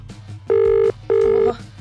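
Ringback tone of an outgoing telephone call: two steady, loud ring bursts of equal length separated by a short gap, with a faint low rumble underneath.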